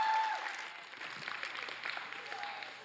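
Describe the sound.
Audience applause welcomes a seventh-grade speaker to the pulpit: dense, steady clapping held at a quiet level for a few seconds, thinning slightly toward the end.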